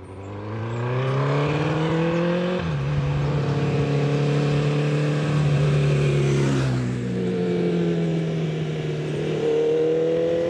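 A car engine in need of much work runs with a deep, full, throbbing hum. Its pitch climbs, then drops twice as it shifts into first and then second gear, with the loud drone continuing throughout.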